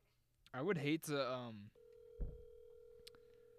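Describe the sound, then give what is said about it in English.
A phone places a call to a random contact from a contact list. A person talks briefly, then a steady, even ringing tone sustains until the end with a faint click near the finish. “Just call like some random people. Like scroll through your contact list, just tap on one and whoever it is call it.”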